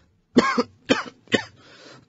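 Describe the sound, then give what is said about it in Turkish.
A patient coughs on a doctor's instruction during a medical examination: three sharp, evenly spaced coughs, each a loud harsh burst, then a softer, longer raspy exhale. No speech. “Nefes alır mısınız? Öksürün.”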